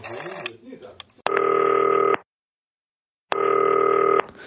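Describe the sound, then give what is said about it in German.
Ringing tone of an outgoing telephone call, two long steady buzzing bursts separated by a silent pause, following a short stretch of talk and noise at the start. “Wir haben gesagt, wir rufen dich nochmal an.”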